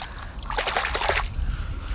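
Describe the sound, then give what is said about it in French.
Soft splashing and sloshing as feet step into cold water from the edge: a short cluster of watery splashes in the middle, then a low, steady background. “Je mets les premiers pas dans l'eau là.”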